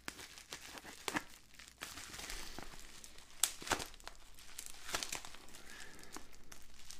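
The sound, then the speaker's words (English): Tape rips and cardboard crinkles as a heavily taped cardboard box is worked open with a knife, producing many irregular crackles, scrapes and sharp tearing bursts at a fairly low level without talk. “Of course, this one's taped a little bit better, so it's going to be harder to open here.”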